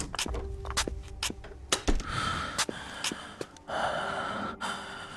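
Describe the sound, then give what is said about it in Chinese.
Heavy, irregular panting from a man whose body feels feverishly hot: many sharp, breathy gasps and snorting breaths follow each other closely, loud and uneven, with no talking. “藤田青也大口喘息着”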